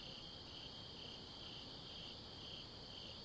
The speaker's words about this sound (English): Can you hear that? I think they're crickets. I don't know what they are. Yeah, I'm pretty sure they're crickets.